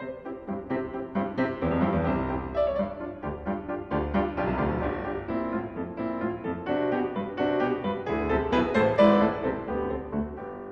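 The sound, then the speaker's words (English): A simple waltz theme in triple time, played instrumentally with a melody over steady repeated chords, lasting about eleven seconds with no voices. “The theme itself, the waltz written by Diabelli, sounds like this.”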